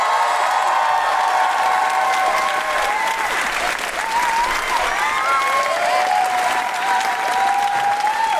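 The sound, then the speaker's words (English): Audience applause with excited whoops and cheers greeting a comedian at a live Amnesty International comedy show. Dense clapping runs unbroken for about eight seconds while high cheering voices rise and fall on top. “Put your hands together and make excited noises for the wonderful Jessica Foster Kew!”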